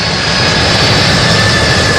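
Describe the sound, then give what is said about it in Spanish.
Steady, loud jet roar from a Lockheed C-5M Super Galaxy military cargo plane landing at Guayaquil airport at nightfall, a broad rushing drone that holds evenly throughout. “Es la primera vez que el avión Lockheed C-5M Super Galaxy, que moviliza el Departamento de Defensa para el transporte de carga militar pesada a cualquier parte del mundo, surcó el espacio aéreo ecuatoriano.”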